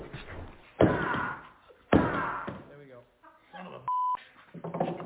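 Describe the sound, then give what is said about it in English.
Two loud, sharp thuds as a locked gun travel case is smashed open, each followed by rattling, with a man talking between the blows and a brief steady electronic beep near the end. “I think the center thing, I don't travel with guns very often, so I don't know how to operate these. I'm going to smash this son of a bitch open.”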